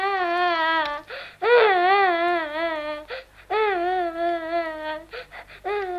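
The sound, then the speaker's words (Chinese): A person cries in loud, wavering wails that come in several sustained phrases with brief catches of breath between them. “莫哭，别哭了。好了好了，”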